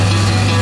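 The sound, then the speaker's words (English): Concrete mixing: a continuous churning, gritty rumble with a steady low hum underneath. It stays at a constant, loud level through a short stretch with no talk. “Concrete mixing.”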